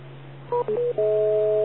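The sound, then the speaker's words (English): Electronic beep tone on an amateur radio net: a few short tone blips, then a steady two-note tone held to the end, over a constant low hum. “I forgot the beep there.”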